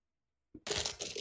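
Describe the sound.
Someone rummages through items hunting for a pencil sharpener: a soft thump, then continuous loud rattling and clattering of objects being shifted around.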